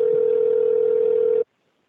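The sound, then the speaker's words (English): Ringback tone of an outgoing telephone call: one loud, steady electronic tone held unbroken for about one and a half seconds, then cut off abruptly into silence. “Answer the phone. It's a strange number coming from Blog Talk.”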